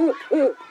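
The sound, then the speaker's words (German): Eagle owl call from a bird-voice clock: two deep, hollow hoots, each a short tonal note separated by a brief gap, heard alone with no other sound. “Ist das ganz oben eine Eule? Ja, unsere größte Eulenart, der Uhu. Wartet mal, ich stelle mal den Zeiger so, dass man seinen Ruf hört.”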